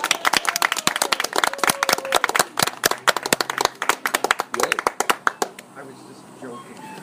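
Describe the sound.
Audience applause, with many overlapping claps at a busy, steady rate mixed with voices, thinning out and fading toward the end.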